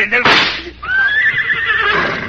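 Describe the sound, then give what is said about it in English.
Horse whinnying, a short noisy burst followed by a high, harmonic call held for about a second and a half that sags slightly in pitch. “The horse! He's run away, the horse, to the jungle!”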